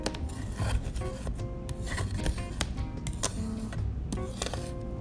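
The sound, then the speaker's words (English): Paint being scraped out of a pan with a scraper: a continuous gritty rasping of many quick, uneven strokes at an even, moderate loudness. “And then you can throw the paint, the scraped away paint,”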